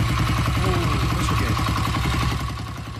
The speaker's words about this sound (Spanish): ¿125 esa? Ah, la pelota. Bueno, ahí ya está. Omar. Ya está. ¿Es un escape libre? ¿Un escape libre?